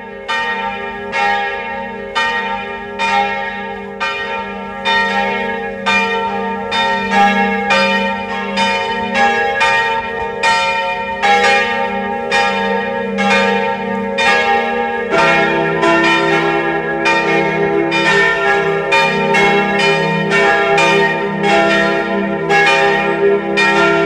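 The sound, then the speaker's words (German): Church bells of the parish church in Mistelbach, Lower Austria, ring out at noon in a loud, continuous peal. Overlapping strikes ring with rich, sustained tones, and the sound thickens partway through. “Es ist 12 Uhr. Sie hören die Glocken der Pfarrkirche Mistelbach, Niederösterreich.”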